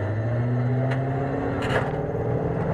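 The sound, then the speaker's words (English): Low engine rumble and steady drone of a wheeled infantry fighting vehicle rolling out of a column, continuous and moderately loud with a slight swell in noise partway through. “A wheeled carrier, something you've heard referred to as an IFV, or infantry fighting vehicle, rolls out of the column and into the path of fire between the refugees and the assailants.”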